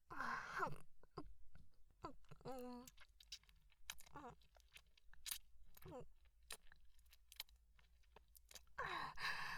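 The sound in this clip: Chocolate being chewed and melted in the mouth, with many soft, sticky, wet smacks and squishes in an uneven rhythm. Brief voiced sounds come at the start and end.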